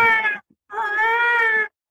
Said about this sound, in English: And there's a cat, meow, meow. It could be a baby cat, and it could be a mature cat when it's really angry, meow.